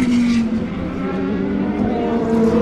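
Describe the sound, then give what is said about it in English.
Petrol race cars, an Aston and a Dome, scream past at racing speed. The engine whine is loud and sustained, with steady tonal harmonics and slight shifts in pitch. “At racing speeds, that's the sound of the Aston and the Dome.”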